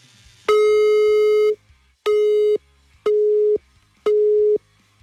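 A telephone busy tone after a call is hung up: four loud, steady beeps at one pitch, the first about a second long, the next three shorter and evenly spaced.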